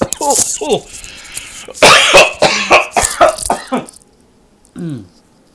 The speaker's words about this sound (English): I breathed in to take a breath to continue talking and just started coughing up a storm.